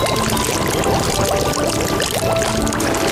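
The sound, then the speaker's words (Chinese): Hot water pours from a large basin into a wok of fried spices and local chili sauce, making a loud, steady rushing splash that continues without a break from start to finish. “香料和本地辣椒酱炒出香气，再加入一大盆热水”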